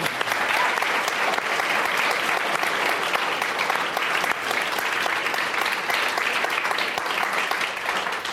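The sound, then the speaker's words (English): Audience applause at a live climate discussion event: steady, dense clapping that holds at an even loudness for the whole stretch, with no talk over it. “Let's give it up for these guys doing something really hard.”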